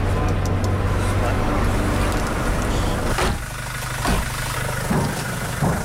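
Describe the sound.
Steady engine rumble of a car driving slowly on an icy, slippery road near the front line around Avdiivka: a loud, broad low drone with a slight dip midway and a few bumps.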